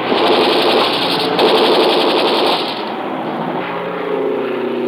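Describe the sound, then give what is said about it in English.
A low-flying enemy airplane's engine drones in a loud, steady, rumbling roar that dips slightly in level partway through and then holds. “Airplane. Enemy plane. Yeah, coming in low. Gonna make a pass at us.”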